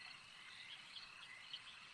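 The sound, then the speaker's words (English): Frog croaking sound effect for an acid-spewing frog in a tabletop fantasy game, a faint, continuous high, buzzing trill with a few slightly sharper accents. “This frog spews acid at you.”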